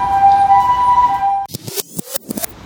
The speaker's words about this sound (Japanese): いやいやこれ雨の音じゃないなと、あ、救急車が